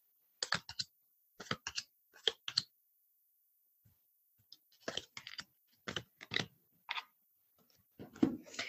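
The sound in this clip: Shuffled tarot cards are laid out one after another, making short, dry snaps and slaps in small clusters separated by quiet pauses.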